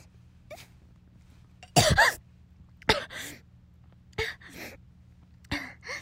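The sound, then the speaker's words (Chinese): Choking coughs from a person: four sharp, harsh bursts spaced roughly a second apart after a faint earlier one. They are quiet, over a low steady hum. “呛到我了”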